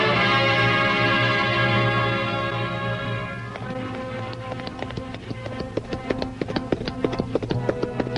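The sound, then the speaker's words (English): A horse galloping down a village street, its hooves clattering in a rapid, sharp stream of many beats that begins as a sustained musical chord fades out. “A hurry of hoofs in a village street”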